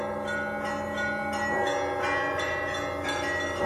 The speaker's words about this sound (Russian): по всему саду, освещенному луной, разливался веселый, красивый звон дорогих тяжелых колоколов